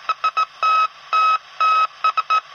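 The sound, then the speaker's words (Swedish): Morse code SOS in loud, clean electronic beeps: three short tones, three long tones, then three short tones again, all at one steady mid-high pitch and played alone. “vad är morsekoden för SOS? Och rätt svar där ska vara alternativ 1. Tre korta, tre långa, tre korta. Och det låter så här.”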